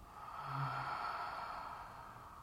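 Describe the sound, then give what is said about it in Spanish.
One faint, airy breath is exhaled slowly through the mouth during a guided breathing exercise. It is a soft, steady rush lasting about two seconds, with no talk over it. “Toma una inhalación y retén la inspiración. Sella. Y exhala por la boca.”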